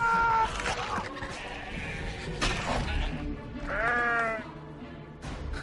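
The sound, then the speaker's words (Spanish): Sheep bleat during shearing in a film scene, with a couple of loud, wavering bleats at the start and later, and sharp noisy clattering bursts between them. “¿Qué es ese ruido? Alguien esquilando.”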